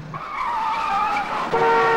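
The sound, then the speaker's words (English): Car speeding into moving traffic: a loud, sustained high-pitched whine of engine and squealing tires that wavers steadily, then jumps to a new, stronger tone near the end. “The car driven by Tony speeds into moving traffic, headlights blazing.”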